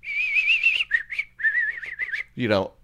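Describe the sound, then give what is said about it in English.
A person whistles in imitation of a bird call, a high, warbling tone in several short repeated phrases, finishing with a brief low voiced sound. “you ever heard a bird like that was just doing this over and over again?”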